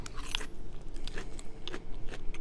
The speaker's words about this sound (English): So what you're eating right now is actually something that we're going to serve for Valentine's Day coming up.